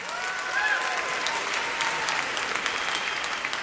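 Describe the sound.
Audience applause welcoming the master of ceremonies at a tribute concert honoring Jewish music, a dense, steady clatter of many clapping hands that holds at an even, loud level throughout.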